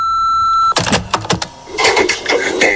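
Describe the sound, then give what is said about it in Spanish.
An answering machine's beep sounds as a steady, clear tone lasting under a second, then gives way to a few clattering, rustling knocks. “Si quieres dejar un mensaje, puedes hacerlo después de oír la señal.”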